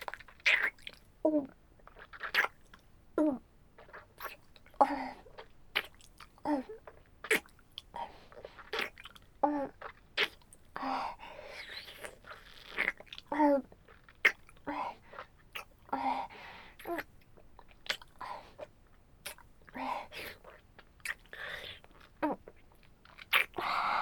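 Food being bitten and chewed: many sharp, crunchy bites and wet mastication sounds repeat in an uneven rhythm throughout, each crackling burst standing out clearly against a quiet background.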